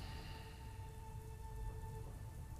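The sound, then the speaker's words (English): Rain falls steadily in a soft, continuous wash of hiss, faint and even throughout, with a thin steady hum running beneath it. “as the rain starts to get heavier and heavier”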